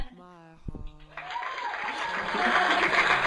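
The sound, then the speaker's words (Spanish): Audience applause swells after a brief voice, building into dense, steady clapping that grows louder toward the end. “Muchas gracias por el aplauso.”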